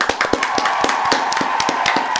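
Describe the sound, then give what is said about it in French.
Applause in a French quiz segment, a small group clapping in quick, irregular crisp hand claps that continue steadily throughout. “Bravo. Bravo. Et pour un applaudissement.”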